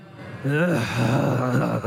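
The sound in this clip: An audience groans together in a sustained, low, wavering collective moan that rises from quiet and holds steady to the end.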